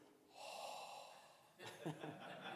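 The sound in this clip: A voice imitates an exhaled breath, giving a soft, drawn-out breathy whoosh of about a second, followed by further quiet, airy breath noise.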